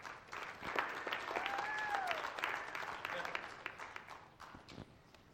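A church audience claps their hands together to welcome a man coming up to make an announcement. The applause is dense, steady and full, holding at an even level for the whole stretch.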